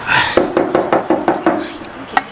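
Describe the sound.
Knocking on a door: seven quick, even knocks in a steady rhythm, a short pause, then one more knock.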